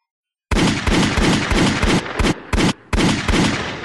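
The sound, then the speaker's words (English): Gunfire from a 21-gun salute: loud shots in a fast, rhythmic string of many bursts, with a few brief gaps between groups. “Times 21. Yeah, that was about 21 guns.”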